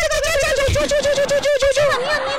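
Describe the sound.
A human voice imitates a bird call with a continuous, whistle-like warbling tone that wavers rapidly in pitch for about two seconds, then stops abruptly.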